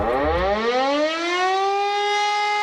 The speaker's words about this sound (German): heute ist bundesweiter Warntag. Um 11 Uhr werden auch in Berlin alle 420 Sirenen ausgelöst